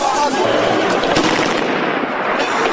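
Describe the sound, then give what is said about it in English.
Police fire warning shots and tear gas canisters at protesters near the police headquarters in Siliana. Dense, overlapping cracks and bangs form a continuous loud barrage with no pause. “Police and the National Guard fire tear gas canisters and warning shots to prevent these protesters from getting closer to the local police headquarters.”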